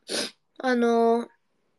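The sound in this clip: A short, breathy sniff from a runny nose, followed by a drawn-out voiced nasal hum, both brief and fairly loud.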